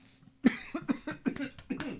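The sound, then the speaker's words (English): Coughing from one person: a quick run of several dry, hoarse coughs in close succession, fairly loud and alone. “That's me coughing.”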